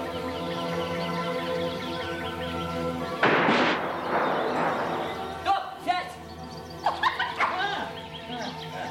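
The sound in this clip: A dog barking in a forest during a hunt for game: a loud burst, then several sharp barks in two clusters after a stretch of sustained music.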